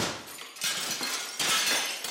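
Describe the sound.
Window glass shatters as it is knocked out of a caravan being fitted out as a food truck: loud crashes of breaking glass, with bright tinkling fragments following each burst.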